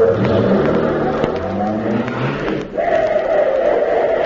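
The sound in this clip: A car's engine drones loudly and steadily, with a broad, rough rumble that dips briefly before surging again as the vehicle drives off.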